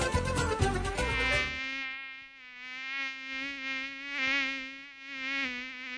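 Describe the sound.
A mosquito buzz: a sustained, high, thin whine with a slightly wavering pitch, rising and falling gently in loudness, after a brief burst of louder mixed noise at the start.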